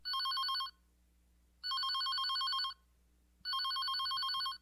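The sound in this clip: A telephone rings with an incoming call: three loud, bright electronic ring bursts, each about a second long, separated by quiet pauses, over a faint low hum.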